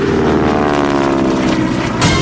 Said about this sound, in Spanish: el avión despega.